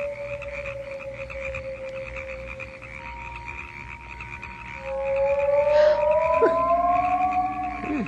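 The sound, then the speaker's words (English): Frogs croaking on an island, a steady chorus of drawn-out tonal calls that grows louder and denser in the second half, with overlapping voices at different pitches and no talking. “And the frogs.”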